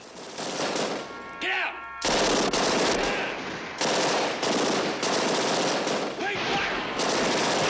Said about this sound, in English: Bonnie and Clyde take turns to fire their Tommy guns at an armored police car. A cop car rolls as Clyde lunges out of a doorway, firing.